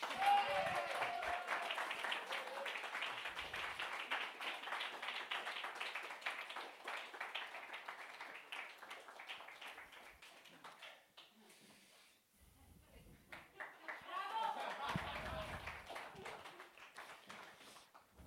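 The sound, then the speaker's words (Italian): Audience applause during a stage monologue: dense, sustained clapping that thins out and dips near the middle, then swells again briefly before fading. “mentre voi mi farete un applauso a scena aperta”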